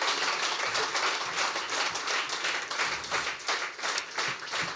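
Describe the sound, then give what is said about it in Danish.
Audience applause at a live comedy talk show in Greve: dense, sustained clapping from a crowd that stays loud and steady throughout, with no pauses. “Mine damer og herrer, giv en kæmpe stor hånd til en organdonor. Giv ham en hånd.”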